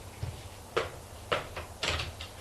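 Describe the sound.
A cupboard is opened with a few short wooden knocks and clicks in quick succession, faint over a low background hum.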